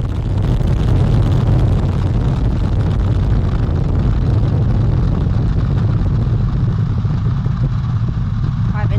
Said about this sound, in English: 5, 4-stage engine start. 3, 2, 1. Boosters in ignition. And liftoff of Artemis 1.